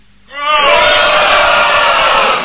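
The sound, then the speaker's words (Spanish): A live audience shouts a goal cheer for South Korea, a loud, sustained roar of many voices that swells up quickly after a brief quiet moment and holds strongly to the end. “Gritemos un gol de Corea del Sur. ¡Gol de Corea del Sur!”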